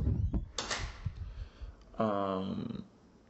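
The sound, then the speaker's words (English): A door being closed gives a quiet, brief thud with some soft rustling, set against low background noise. “let me close the door.”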